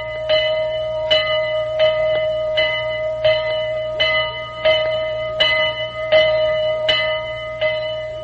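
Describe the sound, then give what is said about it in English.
The original bell of a restored historic steam locomotive rings in steady, evenly spaced strokes. Each clear, bright clang lingers briefly before the next, with a faint low hum underneath. “That's the sound of the bell. That's the bell of the General. That's the actual bell, too, it said here.”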